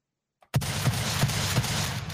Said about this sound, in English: I had to give a couple shotgun shots.